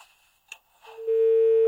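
A telephone tone sounds after a call on a phone-in line disconnects. It is a single loud, steady tone that starts after a short stretch of faint noise and runs alone to the end.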